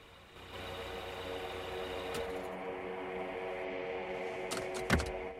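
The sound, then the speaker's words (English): A car engine idles steadily after a car pulls up in a driveway at night, a low, continuous rumble heard alone, with a brief sharp knock near the end. “A car pulls up in George's driveway, the red brake and headlights shining out in the dark, before both are extinguished when the engine is killed.”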